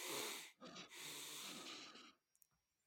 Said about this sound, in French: Double inspiration. Expire. Double inspiration